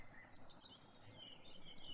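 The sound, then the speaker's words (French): Birds sing faintly with thin, high chirps and short trills scattered over a steady background hiss. “Il y a des oiseaux pour faire joli.”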